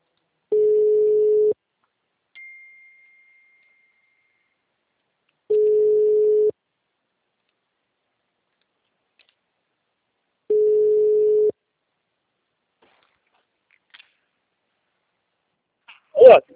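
Ringback tone of an outgoing telephone call: three long, steady, low-pitched rings, each about a second long and spaced roughly five seconds apart, with near silence between them.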